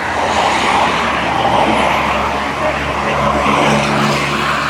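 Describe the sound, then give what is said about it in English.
A Ferrari sports car speeds past on a fast road in Malta, its engine a loud, steady roar blended with a broad rushing noise. “And that's a Ferrari just going past, using it as a racetrack.”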